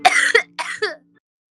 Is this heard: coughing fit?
yes